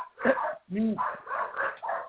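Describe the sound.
Dogs bark at a neighbour coming home: a short bark is heard among a man talking.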